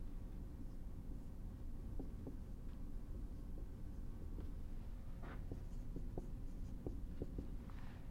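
Handwriting as equations are written out by hand: many soft, brief scratches and taps scattered across a steady low hum.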